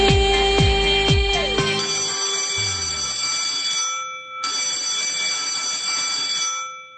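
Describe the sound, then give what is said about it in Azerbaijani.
An electronic school bell rings in two long, bright, steady bursts separated by a short pause. “Deyirəm sizə, indi bu zəng 11 il eşitdiyiniz zəng kimi adi də gələ bilər.”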